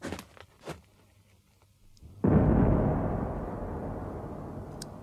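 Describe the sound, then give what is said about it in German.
A single signal cannon shot fired as troops around Moscow are ordered into the city: one sudden loud boom after a few faint clicks, followed by a long, slowly fading rumble. “Ein einzelner Schuss der Signalkanone ertönte.”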